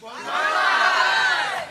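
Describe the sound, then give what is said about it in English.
A crowd shouts together in a single sustained cheer, the audience crying out 'Banzai' for a ukulele player up for an album award. The voices rise quickly, hold at a loud level for more than a second, then drop off. “The audience shouts, Banzai!”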